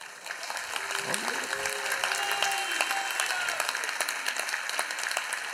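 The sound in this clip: Audience clapping fills the scene with dense, steady applause throughout, and a voice briefly rises above the crowd early on.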